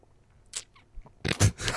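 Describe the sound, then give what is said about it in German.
A sip of tea is taken: after a few faint soft noises, a short burst of breathy, noisy slurping lasts about half a second at moderate loudness. “Ah, ich habe nur einen Schluck Tee genommen.”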